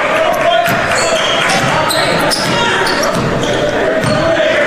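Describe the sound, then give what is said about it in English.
A basketball is dribbled slowly up the court during a second-quarter game, with light bounces under steady crowd noise and voices. “slowly dribbling up court”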